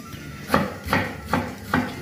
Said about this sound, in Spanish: lo que nos queda por colocar son los tomates. Vamos a picarlos mientras que se va dorando un poco